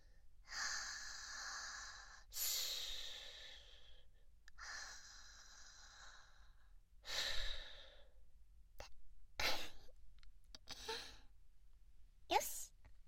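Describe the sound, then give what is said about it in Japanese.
Slow, deep breathing, heard as a few long, airy breaths at a steady pace, followed by shorter sniffs and puffs of breath. All are quiet and breathy, with no talking. “大丈夫大丈夫、力抜いて。ほら、深呼吸して。”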